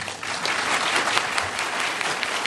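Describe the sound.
Short burst of audience applause welcoming a speaker to a meeting. Continuous, evenly dense clapping lasts the whole clip without pause.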